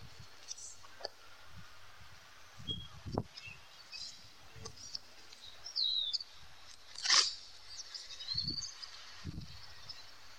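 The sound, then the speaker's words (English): Bird calling: a few short, high chirps, faint and brief, rise above a quiet background of low muffled thumps and rustling. “What's that? It's the bird?”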